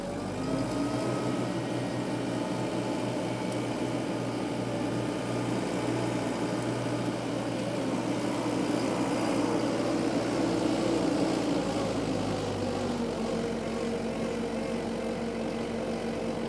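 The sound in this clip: The engine of a LeeBoy 8510E asphalt paver idles up on its own. It is a steady, loud mechanical drone with humming harmonics, and its tone shifts noticeably about three-quarters of the way through.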